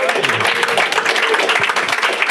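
Audience applause for a guest at a live show, dense and steady clapping that fills the whole stretch at an even level.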